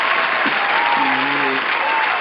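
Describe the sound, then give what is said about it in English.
Applause from a crowd, dense, even clapping that holds at a steady level through the whole clip, with a brief voice sound under it partway through. “I want to give all of you another round of applause for rocking with your homeboy for two seasons.”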